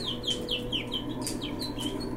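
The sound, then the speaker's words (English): Bird calls inside a background music track: many short, high chirps, each sweeping downward, repeat in a quick, fairly even rhythm over a steady low hum. The whole passage is faint, and no one speaks. “There's that bird again. Yeah, I guess it's just part of the track.”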